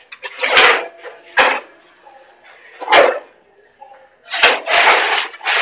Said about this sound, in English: Okay, so now I've got my two little cakes. I am going to pop them into the oven.